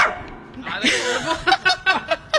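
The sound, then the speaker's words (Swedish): A pet dog barks in a quick run of about five sharp, short barks toward the end, after a stretch of mixed, indistinct human sounds. “Och det är så roligt, för jag sa här precis, han har ju skällt så mycket. Och jag sa, när vi går ut i sändning, då kommer han sluta. För djur känner av sånt här.”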